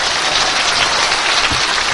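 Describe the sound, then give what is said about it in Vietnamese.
Audience applause at a Buddhist dharma talk, a dense, even roar of many hands clapping at once, loud and sustained without a break. “Chúng ta cho một tràng pháo tay.”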